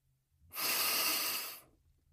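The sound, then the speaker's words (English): A single deep breath drawn in slowly during a relaxation wind-down: a steady, breathy hiss that swells and lasts about a second, then fades, heard alone without talk. “Take a deep breath.”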